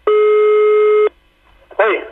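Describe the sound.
A telephone ring tone sounds as a call is placed to a taxi driver: one steady, even tone lasting about a second, then a short pause, then a brief voice.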